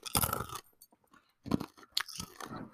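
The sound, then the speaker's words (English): Crisp, crunchy chewing of toasted praline peanuts, with loud bursts of crunching separated by quieter moments and short pauses. “Sorry, I'm eating peanuts. This is an ASMR video episode.”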